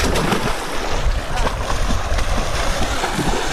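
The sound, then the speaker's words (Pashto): Water splashing as a young man swims in a deep dam reservoir, a steady, low wash of splashes mixed with wind noise throughout. “اوریدونکو، دغه کم غږ چې تاسې اورئ یو ځوان دی چې په اوبو کې لامبي.”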